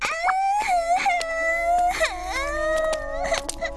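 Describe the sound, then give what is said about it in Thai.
A child cries without pause in loud, high wailing sobs, the pitch sliding up and down between short catches of breath. “ร้องไห้ทำไมล่ะลูก”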